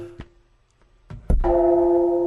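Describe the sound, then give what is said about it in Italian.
A Japanese bell is struck once after a few soft knocks and clicks, then rings with a steady, bright, sustained tone that holds loud until the end. “Campana giapponese.”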